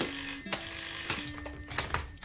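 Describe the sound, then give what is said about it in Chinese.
A telephone rings in repeated bursts of a steady bell-like tone over a faint background hiss, with no one speaking. “我听电话先。”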